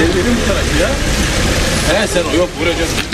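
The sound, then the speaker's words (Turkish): Cars idle in a long evening traffic queue at the Belgrad Forest exit in Istanbul, making a steady, dense engine rumble with voices talking over it. “Belgrad Ormanı'nın çıkışında akşam saatlerinde araç kuyruğu uzadıkça uzadı.”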